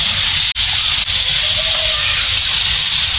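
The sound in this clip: A briquette-fuelled stove burns with a steady, even hiss that stays constant and fairly loud from start to finish.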